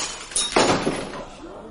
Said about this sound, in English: I appear inadvertently to have knocked over my carafe.